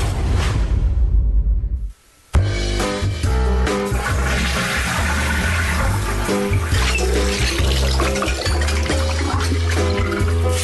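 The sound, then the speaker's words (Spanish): Water sounds, with flushing and running-water character, blend into a dense, continuous bed of tonal backing. The bed drops out briefly near the start, then runs steady and loud to the end. “Los sonidos del agua están presentes en todo momento de tu vida.”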